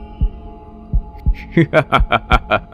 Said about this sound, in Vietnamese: Hắn lôi quả tim nhơ nhớp máu Vẫn còn đang đập ra